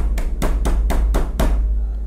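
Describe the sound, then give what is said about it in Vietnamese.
Loud, urgent knocking on a bedroom door: six hard, rapid knocks in an even rhythm over a low steady hum, then silence. “Tiếng gõ cửa rất mạnh và gấp.”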